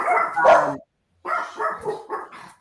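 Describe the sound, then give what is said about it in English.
A dog barks: one longer bark, then a short pause, then a run of several quick barks of similar loudness. “And Barkley is now barking. Barkley has joined the conversation.”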